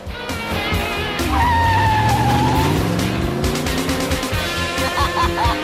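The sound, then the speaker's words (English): Cars racing along a road: loud roaring engines whose pitch climbs as they accelerate, with a sharp tire squeal partway through and rising engine whine toward the end. “They race along the road.”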